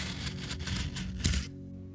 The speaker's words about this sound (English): That is the sound of paper cupcake papers.